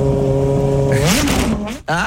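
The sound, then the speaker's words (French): A moped engine revs with a buzzing, harmonic drone that holds steady, then climbs sharply in pitch, settles back and surges again before cutting out briefly and picking up once more. “C'est une super mobilette en fait. Ah, elle est super énervée.”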